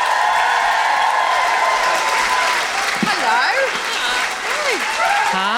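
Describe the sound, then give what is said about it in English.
A live audience in Sydney gives loud, dense applause and excited cheering for a British guest comedian, with whoops rising over the clapping. A voice briefly offers a greeting near the start. “Please put your hands together and make excited noises for Tiff Stevenson.”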